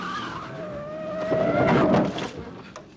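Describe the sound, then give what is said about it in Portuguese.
Screeching tires and a rushing car as a rental car drives off a half-metre ledge at 70 km/h without slowing. A high, steady squeal builds into a loud, noisy burst, then fades. “Você desceu um ressalto de meio metro sem reduzir a velocidade. Estava a 70 km por hora, não é?”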